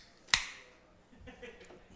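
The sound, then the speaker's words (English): A can of beer from Trillium, a Massachusetts brewery, cracks open with one sharp snap, followed by a faint hiss that fades away; quiet, with soft noises near the end. “What did you just crack open? I just opened a beer uh, one of your customers brought to us uh, yesterday. It's from a uh, Massachusetts brewery called Trillium.”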